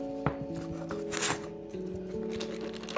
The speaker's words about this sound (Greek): Ανακατεύουμε τους σπόρους μας